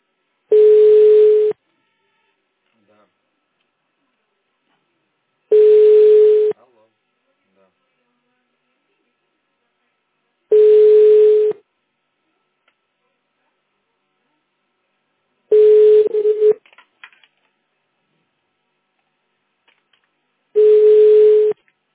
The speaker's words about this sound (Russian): Продолжается попытка дозвониться до абонента, который пока что не успел ответить на ваш вызов.